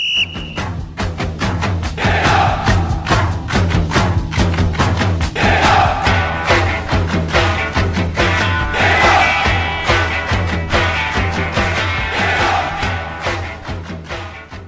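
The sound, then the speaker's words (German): Entrance music plays for a guest arriving at a football club matchday show. A loud, steady pounding beat carries shouted, chant-like vocals throughout. “Die Einlaufmusik natürlich passend gewählt.”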